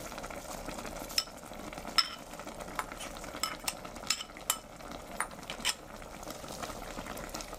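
Green vegetables and green onion leaves stir-frying in a pan give a steady, moderately loud sizzle, broken by a few sharp scraping clicks as they are stirred.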